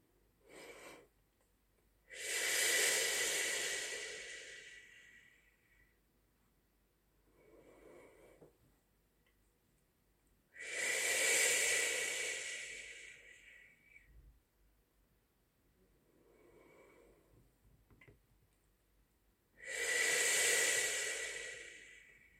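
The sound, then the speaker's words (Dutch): Audible breathing in and out without voicing: three loud, long, hissing breaths come at even intervals, with fainter breaths between them. There is no speech. “Het is een klank die je maakt met je ademhaling en niet met je stembanden. Doe maar even mee. Adem in en uit met de houtklank.”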